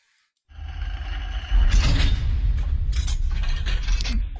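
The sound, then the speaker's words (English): A vault door closes and locks with a mechanical sound effect of grinding gears and ratchet clicks. A heavy clunk comes near the start, then steady loud mechanical whirring and clicking runs to the end. “There it is. Boom. Yeah, it's official. It's officially in the vault. It's there locked.”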